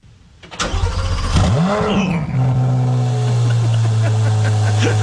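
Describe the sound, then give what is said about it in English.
A Corvette engine cranks over, catches and revs with a sweeping rise and fall in pitch, then settles into a loud, steady idle. “Start that one more time. One more time? One more time. All right, one more time. This is what Corvette sounds like.”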